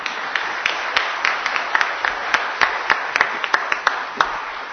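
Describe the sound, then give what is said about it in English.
Audience applause for a choir: many sharp, scattered claps ring out at an uneven rhythm rather than merging into a dense roar, staying moderately loud throughout. “it struck me that we did not give the choir a round of applause.”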